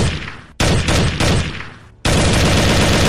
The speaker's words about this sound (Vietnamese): Thoáng chốc tiếng súng vang lên liên tiếp